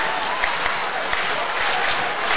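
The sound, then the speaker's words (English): Basketball crowd rising to its feet at a close, two-point playoff game with a Final Four trip at stake: loud, sustained clapping and crowd roar, dense and continuous throughout, with no clear single voice. “Montgomery County crowd comes to their feet. Priory crowd says, yes, we'll do that too.”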